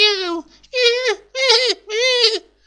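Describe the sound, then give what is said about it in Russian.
Kittens squeaking in a box: four drawn-out, whining mews with a wavering tone, each separated by a brief silence. “Слышится писк котят.”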